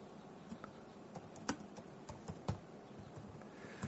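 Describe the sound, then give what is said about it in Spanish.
Typing on a computer keyboard while writing out a word: quiet, irregular key clicks, many light taps with a few sharper strikes, pattering along for about four seconds. “Santidad y se lo voy a escribir.”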